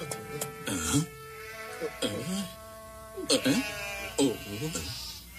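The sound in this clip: Sheep bleating in a flock: several wavering, nasal bleats rise and fall at uneven intervals over a steady low hum, overlapping one another in a loose, irregular rhythm.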